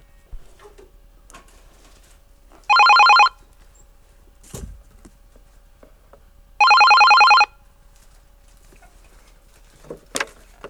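A telephone rings with an incoming call on a fan hotline: two bright, trilling bell bursts several seconds apart, separated by near silence and a few faint clicks.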